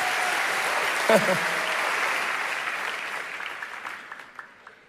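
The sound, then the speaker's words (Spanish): An audience applauds itself after being congratulated, a steady dense patter of many hands clapping that slowly thins and fades toward the end, with a brief voice rising over it early on. “Los felicito. Apláudanse a ustedes.”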